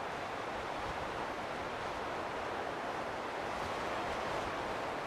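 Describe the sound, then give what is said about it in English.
Strong breeze blowing high above the treetops: a dense, steady rushing noise that holds almost level throughout, with no gusts breaking through and no voices. “There is a strong breeze.”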